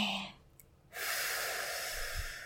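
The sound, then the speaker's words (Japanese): A deep breath taken to calm down: a short inhale, a brief pause, then a long, steady exhale of breathy noise that runs to the end. “一度深呼吸をしましょうか。吸って、吐いて、”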